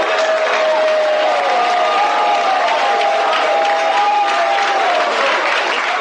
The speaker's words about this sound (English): Clap your hands, you people.